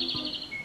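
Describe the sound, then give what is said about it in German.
European robin song: a brief, thin, high-pitched warbled phrase, clear and steady, with no voices. “Das ist das Rotkehlchen.”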